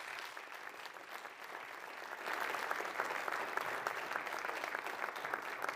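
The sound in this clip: An audience applauds to welcome a Teen Challenge group from Rhode Island: dense, steady clapping that swells louder after about two seconds and holds there.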